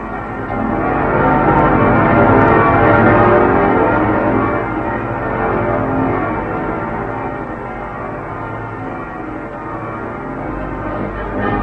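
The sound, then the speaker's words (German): Church bells ring from the towers of Stuttgart in a dense, continuous peal, many overlapping loud metallic strikes that swell early and then ease slightly. “Von allen Türmen entbieten die Glocken der Stadt den Deutschen jenseits der Grenzen ihren ehernen Gruß.”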